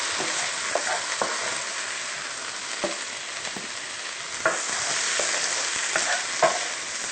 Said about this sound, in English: Now that our spinach is wilted, we can turn off the heat and remove the sautéed vegetables into a bowl.